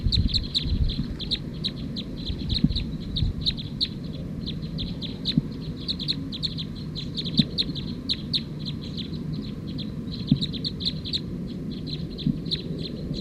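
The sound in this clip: Bird calls from a numbered bird in a recording session: many quick, high chirps repeating steadily over a constant low background rumble.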